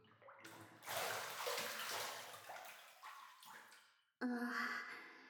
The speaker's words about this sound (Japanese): ちゃんと湯船に浸かって10数えるよ。さ、一緒に入ろう。